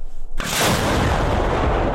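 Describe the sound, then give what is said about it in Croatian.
A single loud blast from an American Paladin howitzer of the 24th artillery brigade firing near Chasiv Yar, with a sharp sudden onset that gives way to a heavy, sustained roaring rumble. “24. artiljerijska brigada koristi američku haubicu u blizini grada Časiv Jar. Obično pucaju na pješadiju koju uoče na prvoj liniji fronta”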